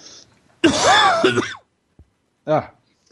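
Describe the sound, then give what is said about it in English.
A sick man coughs: a long, throaty, voiced cough, then a pause and a shorter, sharper cough. “sorry, I'm going to cough again.”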